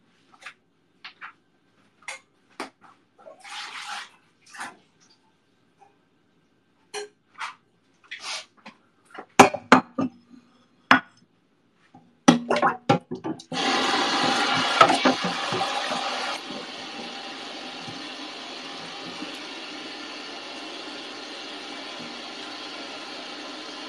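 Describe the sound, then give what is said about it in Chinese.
A small pot is scrubbed under running water. Scattered knocks, scrapes and clinks come first, then a steady rush of running water takes over and carries on to the end. “安安静静的刷个小锅”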